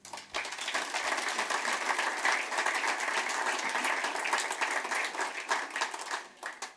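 Audience applause welcoming Australian football legend Alex Tobin to the stage at a medal presentation in Newcastle, many crisp hand claps that start abruptly, hold steady and taper off at the end.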